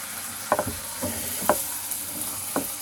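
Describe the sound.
Moist meat mixture sizzling as it is tossed into hot oil in a pot: a steady frying hiss broken by a few sharp crackling pops.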